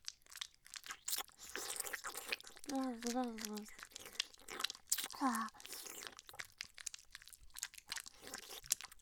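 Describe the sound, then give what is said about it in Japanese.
Wet licking and mouth sounds play close against an ear: many soft clicks, smacks and crunchy crackles in an irregular flow, with a couple of brief soft vocal murmurs. “次は耳を舐めるんですね。はい、パパのお耳いただきます。”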